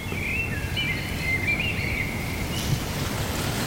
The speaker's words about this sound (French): Il y a la chouette du Lot qui se met à chanter au loin, je l'ai entendu.